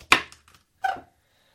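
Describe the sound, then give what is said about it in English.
A sharp knife cuts through the bottom of a stalk of celery in two crisp, crunchy chops, the second following a moment after the first, with no talking. “I've got my sharp knife. And if you are doing this at home, please remember to have a grown-up with you while you do this. And I'm cutting the bottom of my celery.”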